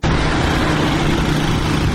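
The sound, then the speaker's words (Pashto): Engine noise from the motorcycles and cars of armed Taliban fighters, a loud, steady roar with a low hum that holds without a break. “د غژغه د هغه وسلوالو طالبانو د موټر سیکلانو او موټرو دی”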